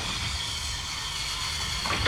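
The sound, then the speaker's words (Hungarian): A train at the small station of Davosdorf gives a steady rumble with a bright, hissing wash on top. The sound is even throughout, with no talk. “A vonat kis állomáson állt meg, Davosdorf volt, amint Hans Castorp megtudta, amikor kikiáltották.”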